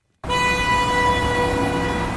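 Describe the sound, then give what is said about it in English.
A car horn in congested Beirut street traffic: after a brief silence, one loud, unwavering tone blares abruptly and holds for about two seconds over a low rumble of engines. “This is the soundtrack of Beirut. A cacophony of engines and horns, many of which are frequently at a standstill due to crippling traffic problems.”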